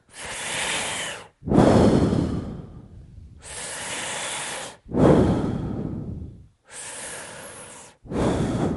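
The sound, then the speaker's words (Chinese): Deep breathing at the start of a standing breathing exercise: repeated slow inhales, each followed by a louder rushing exhale, with short pauses between breaths and no talk. “要观之前先深呼吸三次，深深的呼吸三次”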